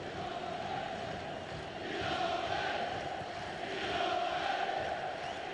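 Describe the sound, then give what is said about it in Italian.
A football crowd in a stadium roars during a Tottenham match. The continuous wash of cheering and chanting swells in waves and grows louder. “Sale il tifo.”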